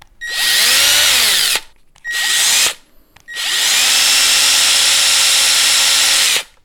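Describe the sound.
A Metabo LTX power tool runs in three bursts: a long one, a short one and a longer final one. Each burst spins up to a loud, high, whining drill-like tone and then cuts off abruptly.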